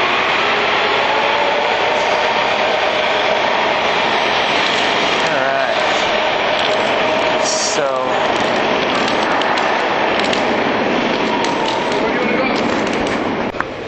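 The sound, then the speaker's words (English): A train passes at a station platform with a continuous loud, broad rumbling roar that holds steady for the whole stretch. “So now we're on the platform. I'm gonna wait for this train to go here.”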